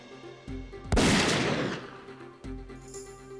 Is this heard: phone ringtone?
no

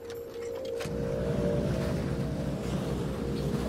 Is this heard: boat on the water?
yes

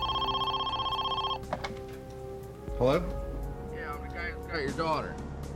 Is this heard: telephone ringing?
yes

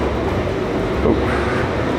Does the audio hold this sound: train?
yes

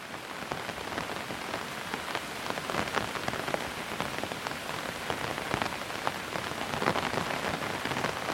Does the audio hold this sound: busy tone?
no

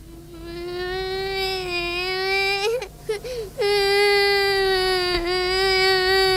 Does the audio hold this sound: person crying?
yes

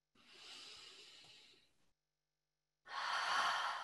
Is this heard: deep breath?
yes

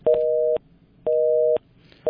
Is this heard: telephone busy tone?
yes

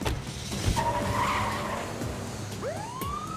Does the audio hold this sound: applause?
no

